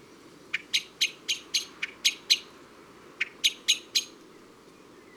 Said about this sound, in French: Les cris les plus communs du merle sont des pit-pit-pit en longue série